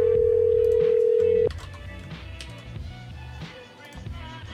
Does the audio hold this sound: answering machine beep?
yes

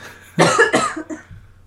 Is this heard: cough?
yes

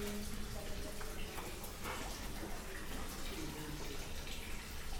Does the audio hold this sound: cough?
no

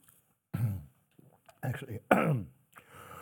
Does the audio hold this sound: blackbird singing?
no

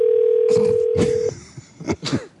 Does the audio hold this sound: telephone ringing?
yes

